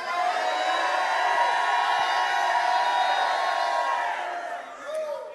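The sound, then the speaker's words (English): An audience shouts praise during a church service, a loud, sustained roar of many voices that holds steady, then eases and swells once more near the end. “Well, give the Lord a great shout of praise today.”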